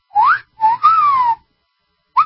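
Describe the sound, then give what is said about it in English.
A person whistles a wolf whistle: a rising note, then a short note leading into a long falling glide, then a brief rising whistle at the end. It is loud and clear, with no talking. “Wolf whistle could become a hate crime in London, say police.”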